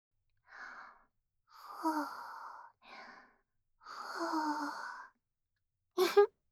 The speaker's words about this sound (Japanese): 暑いから、ふうふうしてあげるね。